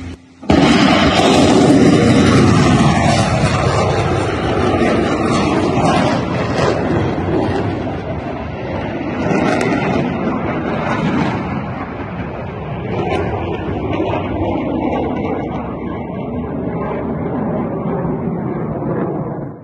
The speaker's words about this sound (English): That's the sound of an American-made ATACMS, the Army Tactical Missile System, finally being fired by Ukrainian forces and hitting Russians inside Ukraine.